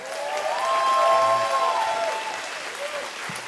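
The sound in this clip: A church audience gives a pastor a welcome of loud, sustained applause, with some cheering voices rising above the steady clapping.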